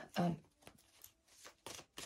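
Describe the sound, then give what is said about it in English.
Faint papery swipes and snaps of cards being pulled from a deck, a few brief bursts spaced out with soft talk between them. “Now I want to pull a couple more cards.”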